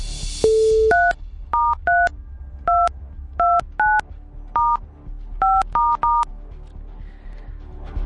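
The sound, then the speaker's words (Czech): Telephone keypad tones dial a number: a short single tone, then a string of crisp two-note DTMF beeps in uneven rhythm, loud over a faint low hum, with no talk. “já už vidím telefonní číslo, na které právě teď zavolám”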